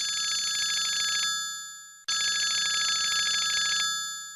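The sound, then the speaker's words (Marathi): An electronic telephone ring sounds in two long, even bursts separated by a short pause. The tone is steady, bright and buzzy, and no other sound is heard. “एक minute, प्रभ्याचा phone.”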